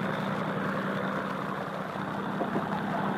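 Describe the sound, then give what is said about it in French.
Engines of a four-engine presidential airliner starting up, heard as a steady, fairly faint droning hum with a low rumbling body and no clear changes across the short stretch. “Les deux moteurs intérieurs viennent de se mettre en marche, puis les deux moteurs extérieurs.”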